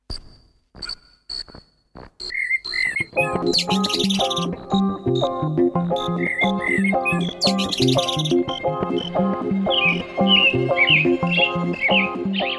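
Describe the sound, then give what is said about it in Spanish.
A European robin (Eritacus rubecula) sings a melodic warbling song of bright, high chirps and trills. The bursts recur throughout over a sustained tonal backing and grow denser toward the end. “Dicen que mi canto es un gorgojeo muy melódico y musical candente, parecido al ruiseñor”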